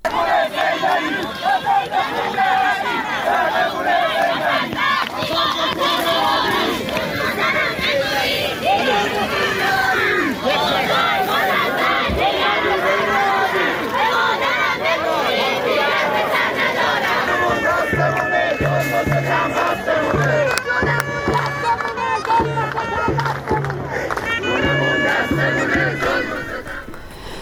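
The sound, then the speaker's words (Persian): A large crowd chants slogans at a street protest in snow and cold in Semirom, Isfahan province. The massed voices are loud and continuous throughout. “جمعیتی کثیری از مردم اومده بودن در میانی برف و سرمایی که تو ویدیوها منتشر شده دیده میشه. صدای سمیروم رو میشنویم.”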